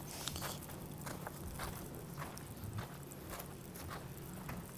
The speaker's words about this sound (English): Now we're walking in spots. We're just walking. We could walk for miles if we wanted to.